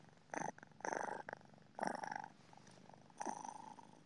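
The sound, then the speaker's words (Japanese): Soft cat purring, heard alone as a few pulsing bursts that swell and fade in a steady breathing rhythm. “これって入ってんのかな、マイクに。猫のぐるぐる音ってさ、なんか、周波数がどうのとかで。”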